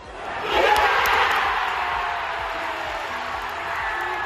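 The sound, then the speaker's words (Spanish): Packed stadium crowd in Cardiff roars as Wales beat Austria 2-1 in a World Cup qualifying playoff. The noise swells quickly in the first half second, then holds as a loud, sustained wall of cheering. “Era el sonido de un público que abarrotaba el estadio donde Gales ganaba a Austria por 2-1, se metía en la final de la repesca para estar en el Mundial de Qatar.”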